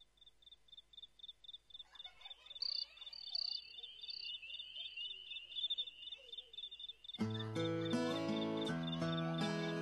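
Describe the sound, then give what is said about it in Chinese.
Crickets chirp in a song intro, a steady high pulsing trill running on its own before full musical instruments come in near the end. “甚至在前奏当中加入了非常清新的，让我们有一些夏日感觉的蟋蟀的声音，给人感觉非常特别。”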